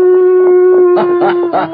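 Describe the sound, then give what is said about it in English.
A person imitating a coyote howl with a loud, steady vocal tone held throughout, joined by rougher, breathy bursts over the second half. “This has to be a coyote.”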